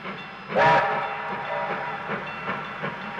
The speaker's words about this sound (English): the notes on the back of the record cover tell me this is Relief Express Train 333. Put on to cope with the extra number of holiday travellers. A short blast from the whistle,